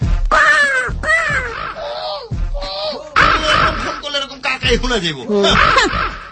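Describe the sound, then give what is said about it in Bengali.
A human voice imitates a crow cawing, producing many harsh, nasal, strained calls in quick succession, some rising and falling in pitch, loud and alone. “কণ্ঠ শুনলে মনে হয় কাক ডাকতেছে”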